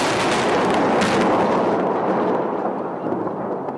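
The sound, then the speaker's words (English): Bombing salvos over Baghdad at night during the 2003 invasion make a dense, continuous roar of blasts and rumbling that stays loud throughout and eases slightly toward the end, with no voices. “Some opening salvos lit the night sky over Baghdad.”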